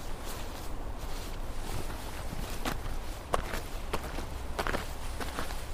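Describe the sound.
Footsteps walking behind a house, a steady series of many soft steps with a few sharper scuffs, heard over a low background hiss with no talk.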